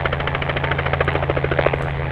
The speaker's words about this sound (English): A black helicopter swoops past a herd of wild horses running across western Utah's high desert.